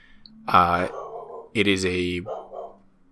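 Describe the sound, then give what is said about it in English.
A dog barks twice, with drawn-out, tonal barks about a second apart and the second one longer. Quiet low sounds fill the gaps between them. “That's my dog, but that's okay. Everyone loves dogs. We can leave the dog. Dogs are good. That's my dog. Keep the barking.”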